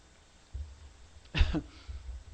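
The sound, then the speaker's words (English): A single short cough in two quick bursts rises out of a quiet, low background hum, with nothing else happening around it. “you're laughing at me because I got my cough.”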